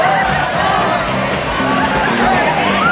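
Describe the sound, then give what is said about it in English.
Bustling crowd noise, a dense and continuous mix of many overlapping voices and shouts, loud and steady throughout with no single voice standing out. “With her hands to her head, she tries to make her way through the crowd.”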